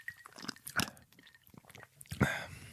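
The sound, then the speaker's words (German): Someone chews and crunches a bite of food containing alcohol, with a few crisp bites and moist munching in uneven bursts, the loudest near the start and end. “So, ich probiere jetzt erstmal, ob das schmeckt hier.”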